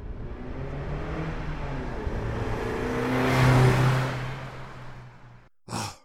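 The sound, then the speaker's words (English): A car engine accelerates as the driver hits the gas. A rough, rising roar swells to a loud peak, then fades away, and a short, sharp burst of noise follows at the end. “hit the gas!”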